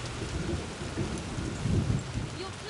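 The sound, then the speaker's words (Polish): Steady rain hisses in a video game while a low thunder rumble swells and grows louder in the latter half, under a constant wash of falling water. “Musimy się schować w jaskini przed deszczem.”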